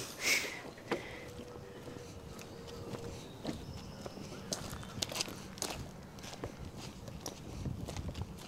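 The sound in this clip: Footsteps crossing a footbridge on a trail: many soft, irregular thuds and taps, faint and close together, against a quiet outdoor background.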